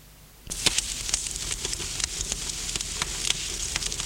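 Crackling fireplace fire: sharp, dry snaps and pops scattered irregularly over a steady soft hiss, starting abruptly after a brief quiet moment and continuing throughout.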